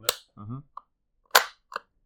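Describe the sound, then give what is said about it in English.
Crisp mechanical clicks of a gun trigger being dry-fired with the magazine dropped. A few sharp snaps are spaced apart, with a brief voice between them. “You could drop the mag and just hear it click”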